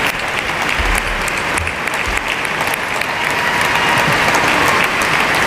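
An auditorium audience gives a standing ovation at an award ceremony, with dense, loud applause that stays steady for the whole clip and no talk over it.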